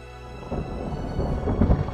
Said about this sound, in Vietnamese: Lôi Đình đánh xuống không ngừng